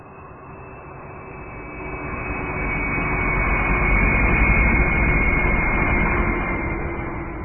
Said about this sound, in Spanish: Arribamos a bordo de un avión de la línea aérea chipriota a la más moderna y la más grande ciudad de Israel, Tel Aviv.